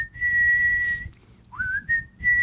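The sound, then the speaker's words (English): A person whistles a tune rather badly: a long steady note, a brief gap, then a quick upward slide into a few shorter held notes. The whistling is clear and moderately loud over a low background rumble. “I would whistle really badly.”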